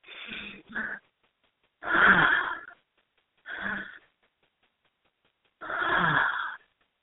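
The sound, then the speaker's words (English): Deep breathing during a guided exercise, slow inhales through the belly and exhales, heard as several loud, airy, wheezing breaths separated by silent pauses, with no talk. “Let's take three deep breaths in through the belly, And out like that. So three of them.”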